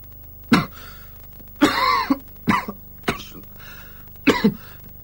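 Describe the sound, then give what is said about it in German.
Human coughing comes as five separate harsh bursts spread out with pauses between. One of them is longer and more rasping than the rest, and no one speaks. “Sagen Sie, klang der Husten nicht seltsam? Hä? Es war doch wirklich ein menschliches Husten.”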